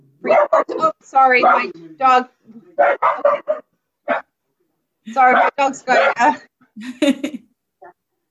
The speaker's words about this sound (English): we didn't get a COVID puppy, but the puppy who's not a puppy anymore is still very noisy